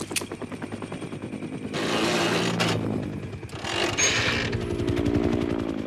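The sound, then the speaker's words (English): A helicopter arrives for a rescue, its rotor beating out a loud, rapid, steady chopping. The pulsing swells with two bursts of rushing noise. “A helicopter comes to rescue Jay.”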